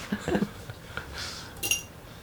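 A knife cuts butter into pieces so it melts easily while a late-night corned beef sandwich is being made, giving a few light clicks and taps of the blade against a hard surface.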